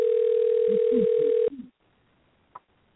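An unanswered phone call rings as a single steady, mid-pitched tone on the line for about a second and a half, then cuts off abruptly, leaving near silence with a faint click.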